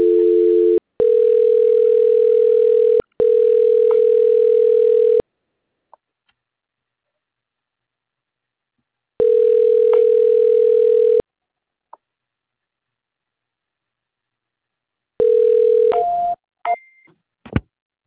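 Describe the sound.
A steady telephone line tone plays while a call is transferred. It comes in long unbroken stretches separated by silences and a few faint clicks, then ends with a brief shift in tone and scattered ticks.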